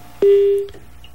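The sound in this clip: A single telephone keypad beep from entering an access code, a steady tone lasting about half a second and clear against quiet line hiss.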